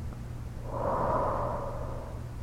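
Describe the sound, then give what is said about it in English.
A single slow, deep breath, a soft airy swell that rises and fades on its own with no talk. “Now take a few more deep breaths with me. Deep breath in, and deep breath out.”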